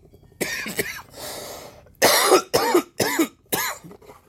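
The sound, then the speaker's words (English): A fit of harsh, chesty coughing by one person, several coughs in quick bursts with a raspy breath between the early ones, with no talk over them. “You start coughing.”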